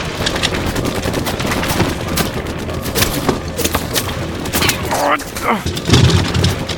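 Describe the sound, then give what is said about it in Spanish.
Gunfire from a building across the way crackles in rapid, repeated bursts of loud shots, mixed with voices. “¿Viste de dónde disparan? Desde el edificio del frente.”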